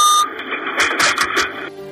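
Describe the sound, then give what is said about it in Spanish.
Acoustic warning signal in a Renfe train cab indicating an approaching curve: a short beep, then a steady, high-pitched electronic tone held for over a second beneath rattling cab noise, before it cuts off. “Mientras hablan, suena la señal acústica que, según explica Renfe, indica la proximidad de la curva de Agrandeira,”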